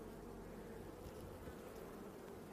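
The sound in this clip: Honeybees buzz in an open hive during an inspection: a dense, steady drone of many wings that holds without a break.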